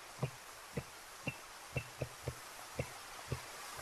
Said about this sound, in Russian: Сердце мое, как вот так сердце бьется. В ритме танго.